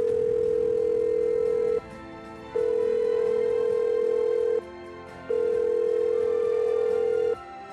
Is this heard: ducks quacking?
no